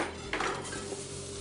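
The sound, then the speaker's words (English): Food goes into a hot saucepan with a brief clattering knock of pan and contents early on, followed by a faint, steady background. “We'll grab the pan. And everything goes into the pan.”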